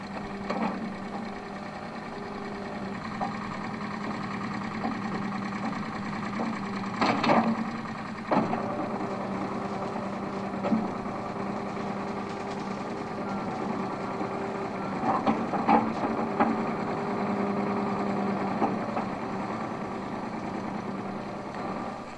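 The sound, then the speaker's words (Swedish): The engine of an old used backhoe loader runs in a steady, droning rumble with a rattling, mechanical texture and a few sharper knocks breaking through now and then. “Jo, det är en baklastare som är en gammal begagnad sådan som vi hittade. Den har faktiskt fungerat kolossalt bra hittills.”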